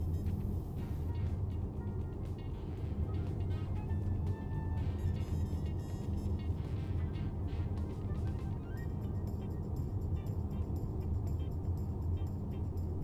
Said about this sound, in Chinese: 我一边开车一边跟你说。